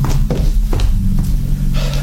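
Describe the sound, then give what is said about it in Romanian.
A man runs across a stage, his footsteps landing as a few dull thuds at an even pace over a low, steady hum. “Priviți-l cum aleargă, cum veșmântul îi flutură. Și iată Eteocles, cum vine în fugă veștile să afle.”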